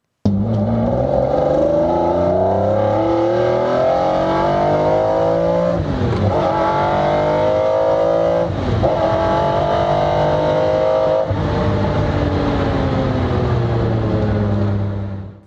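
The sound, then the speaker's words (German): A McLaren F1 sports car's engine revving hard on a test drive: a loud, continuous roar that climbs in pitch and breaks at a few gear shifts before climbing again, with no talk. “Jetzt habe ich so viel über den F1 geredet. Allerhöchste Zeit, dass wir ihn kurz Probe fahren.”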